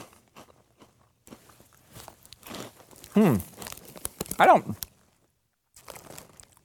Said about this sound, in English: Let's see what these Cheetos can do. What? That's the most perplexing thing I've ever eaten.